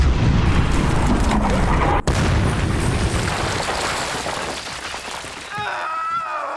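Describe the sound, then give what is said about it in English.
Booming fire from 25mm cannons on Bradley fighting vehicles during an attack in Iraq: a loud, continuous rumbling roar broken by one sharp crack partway through, easing slightly toward the end. “The Bradleys opened up with their 25mm cannons.”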